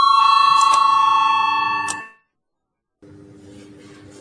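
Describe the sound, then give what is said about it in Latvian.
Electric bell rung in a parliament chamber to call a vote. A loud, ringing metallic tone lasts about two seconds and cuts off, then after a second of silence a fainter ring starts again. “Lūdzu zvanu, balsosim par 50. deputāta Valaiņa priekšlikumu.”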